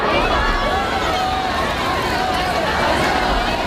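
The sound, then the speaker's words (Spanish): A large crowd cheers and chants in a town square in Melilla during a royal visit, forming a dense, loud, continuous roar of many voices that never lets up. “Volvemos a la Plaza de España en Melilla. Ese es el sonido de los melillenses.”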